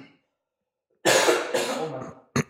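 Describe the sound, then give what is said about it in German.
A lingering cough that has not yet cleared: two long, raspy bursts in quick succession, then a pause and one short, sharp cough. The coughs are loud and heard alone, with no talk. “Der Husten ist immer noch nicht ganz weg.”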